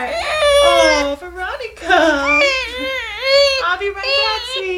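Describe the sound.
An infant cries, sobs and whimpers backstage at a symphony concert hall in repeated wavering wails, while a woman's voice speaks soothingly to the baby between the cries.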